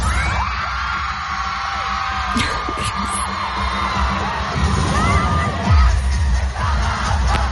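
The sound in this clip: Concert crowd and loud music at a pop show in Cologne, a dense, continuous roar of cheering voices over pounding, throbbing bass.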